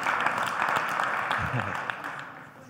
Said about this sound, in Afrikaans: Ja, gee vir hulle 'n hande klap.